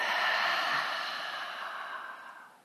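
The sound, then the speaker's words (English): A single long, breathy exhale through the mouth during a yoga exercise, a soft airy rush that holds steady and then gradually fades away. “Inhale. Breathe out your mouth.”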